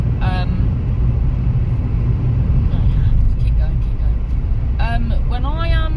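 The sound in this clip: Loud, steady engine and road rumble inside a car going very quickly, a dense low drone throughout with brief voices over it.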